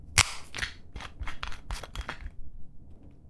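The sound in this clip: A metal screw cap twisted off a bottle: one sharp click, then a quick run of dry, crackly snaps as the seal breaks, all fairly faint and fading into quiet.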